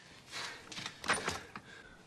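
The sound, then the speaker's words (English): A door handle is tried and an unlocked basement door swings open, after failed attempts to prise it with a crowbar. A few short, light clicks and rattles follow one another, then a brief creak. “He tries the handle. The door's not locked.”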